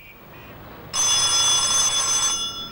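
A telephone bell rings in one continuous, bright, metallic burst of almost two seconds, starting after a brief quiet moment, with no voices.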